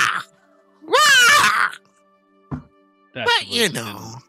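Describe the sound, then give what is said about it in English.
A person imitates a seagull call with two long, wailing, harmonic cries separated by a short grunt, each cry sliding and wavering in pitch. “When the seagulls come in, do you know what a seagull sounds like? It sounds like,”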